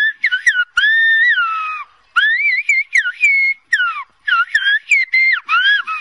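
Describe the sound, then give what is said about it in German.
Whistled language of La Gomera in the Canary Islands, with loud, clear whistled phrases whose pitch glides up and down, delivered in several bursts separated by short pauses, with no talking. “Das war Silbo Gomero. Nein, es sind keine Vögel, die da pfeifen und es ist auch kein Catcalling. Das Pfeifen ist vielmehr die eigene Sprache der kanarischen Insel La Gomera, Silbo Gomero.”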